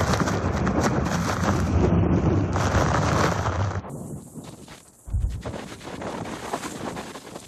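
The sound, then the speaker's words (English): Strong storm wind pummels the microphone in loud, roaring gusts. A long blast dies down, and then another sudden punch of wind hits. “It's like you'll have moments of a punch of wind, and then it'll stop, and then we get another punch of it.”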